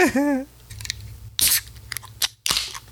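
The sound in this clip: A beer called People Power being cracked open: a short vocal sound at the start, then a few sharp, bright bursts of snapping and hissing separated by quieter gaps.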